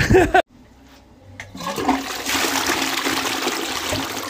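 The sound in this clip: Toilet flushing in public toilets: after a short loud burst and a quiet pause, a rushing surge of water builds up and holds as a steady, loud, hissing roar to the end.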